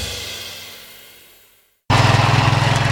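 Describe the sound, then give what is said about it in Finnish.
A lawn mower engine chugs in a loud, steady, pulsing drone that starts abruptly after a fading sound and a moment of silence. “Simahtiko ruohonleikkuri?”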